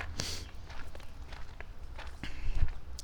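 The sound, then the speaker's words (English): Footsteps of a person limping down a path into the big bird blind at Heron Haven. The steps are soft and irregular, with a few faint scuffs that grow a little louder near the end. “As I walk down here into the big blind.”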